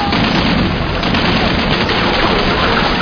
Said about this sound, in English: They're shooting at us! They're shooting at us! We'll shoot back!